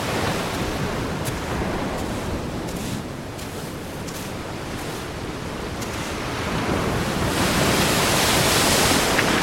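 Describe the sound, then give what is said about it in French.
Waves wash progressively higher up a beach while wind strikes from the side. The result is a steady, full roar of surf and gusting air that swells louder toward the end, with no voices. “Et le vent qui vient sur le côté, qui frappe sur le côté. Et l'eau qui monte progressivement sur la plage.”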